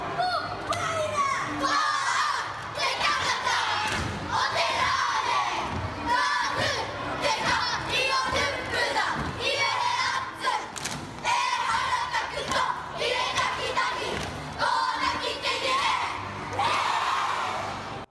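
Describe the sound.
Japanese children chant and shout together in a loud, steady, rhythmic welcome for the All Blacks rugby team. Crowd noise and thumping beats run throughout.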